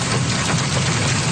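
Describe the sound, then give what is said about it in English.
Hail pelts windows and cars during a severe thunderstorm in Claresholm, Alberta, south of Calgary, making a dense, steady, loud roar with a deep rumbling low end and no pauses. “That's the sound of hail falling in Claire's home, Alberta,”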